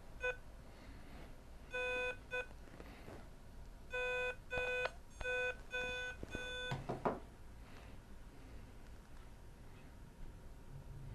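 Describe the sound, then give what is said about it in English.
A small Fox Hunt transmitter circuit sends a call sign as quiet electronic beeps, short and long tones in spaced groups, followed by a faint rustle. “And it sent my entire call sign. If you have any questions or if you want this little piece of code that operates the little Fox Hunt transmitter circuit,”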